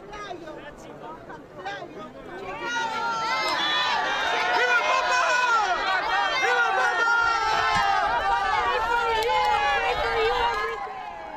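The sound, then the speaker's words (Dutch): A crowd of pilgrims gathered in St. Peter's Square to greet the Pope: many voices babbling and calling out together. The sound swells after a couple of seconds, stays loud and dense, then drops near the end. “Opnieuw vele mensen die naar het Sint-Pietersplein gekomen zijn om de Heilige Vader te begroeten, te zien, te horen, te beluisteren.”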